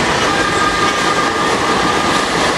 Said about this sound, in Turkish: O sırada tramvay ilerliyordu.